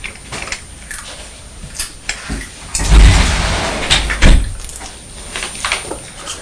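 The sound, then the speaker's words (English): A front door being opened at home, heard as a few knocks and rattles around a louder, rushing scrape in the middle. “Mummy's going to the door to see if I can see what the postman's brought.”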